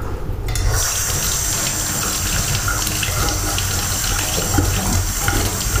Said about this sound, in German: Den Deckel noch abspülen.